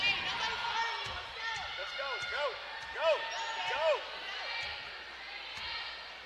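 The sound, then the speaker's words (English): A basketball is dribbled near half court during a women's college basketball game, making a steady run of low bouncing thumps. A commentator talks continuously over them, and faint crowd noise sits underneath. “dribbling just inside the half court line”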